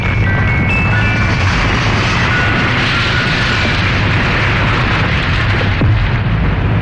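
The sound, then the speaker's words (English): A loud explosion: a dense, roaring blast of noise that stays heavy and sustained across the whole stretch, with deep low rumble beneath. “Did he explode? Oh, I guess he blew up.”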